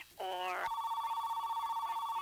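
An incoming call rings through as a quiet electronic telephone ring: a short warbling chirp, then a steady, fast-pulsing tone that carries on to the end.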